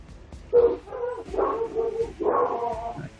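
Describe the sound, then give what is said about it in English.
A neighbor's dog barks a few times in short, whining, yip-like bursts. The barks are fairly loud and come alone, with no talk. “they want to talk to the neighbor's dog”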